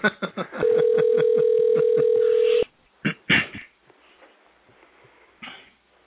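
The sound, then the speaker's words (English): Telephone being dialed: a steady line tone runs under a quick, even train of dialing pulses for about two seconds. It stops abruptly, then a few short, loud bursts follow before low noise. “If I dialed the right number”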